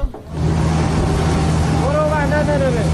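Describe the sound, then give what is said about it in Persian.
Engine of a fuel tanker truck that came to help a Red Crescent relief vehicle stranded on the road without fuel, a loud, steady low drone with a constant hum that persists without a break. “این صدای سوختبری است که به کمک ماشین هلال احمر آمده. امدادرسانی که سوختش تمام شده و در جاده مانده.”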